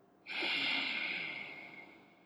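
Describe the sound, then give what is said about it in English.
A single long, forceful breath taken during a guided breathing exercise begins abruptly as a loud airy rush, then slowly fades over about two seconds, with no voices. “And then inhale, bring it in. More. Send it out.”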